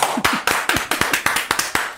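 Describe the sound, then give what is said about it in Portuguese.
Crisp, sharp hand claps in a loose but fairly regular rhythm, about a dozen distinct slaps in two seconds, sounding like one or a few people applauding a performance rather than a full crowd. “Vamos aplaudir, Alexandre Moreno.”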